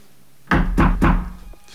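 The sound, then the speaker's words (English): A gun knocked out of someone's hand during an armed standoff: three heavy, dull knocking thuds in quick, even succession, loud against a quiet background, followed by a faint fading tail. “The gun is knocked from Whitney's hand.”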